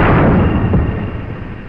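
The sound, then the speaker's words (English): A torpedo is loaded aboard a submarine in a video game, heard as a dense, loud, low mechanical rumble that roars steadily and eases off slightly toward the end. “One of them was our attendant loading a torpedo, and you'll hear that again pretty soon because we restock on torpedoes. Ah, there's another one.”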